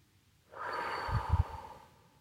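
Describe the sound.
A deep inhale taken during a meditation, one long airy breath of about a second and a half that swells softly and then fades, heard alone without talk.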